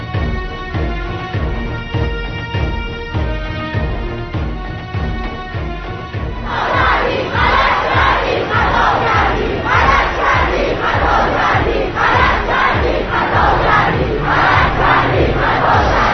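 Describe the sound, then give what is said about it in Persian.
Crowd of Iranian women chanting at a protest, voices calling out in a regular, repeated rhythm that turns into louder, rougher shouted bursts partway through and keeps a steady pulse to the end. “صدای شیر زنان ایرانی را می شنوید، قرش زنان ایرانی را می شنوی؟ صدای مردانه در قرش شیر زنان”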